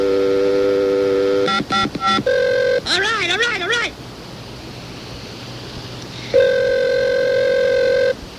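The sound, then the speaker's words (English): Telephone line tones from a speed-dialed call: a steady multi-tone hum, a quick run of dialing beeps, another tone, then a warbling ring burst. After a stretch of hiss, the steady tone returns. “You got to put it on the speed dialer so we can just keep dialing it and dialing it, and eventually it'll get through.”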